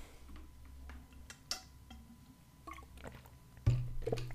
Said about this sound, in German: Ähm, und ich muss mal was trinken.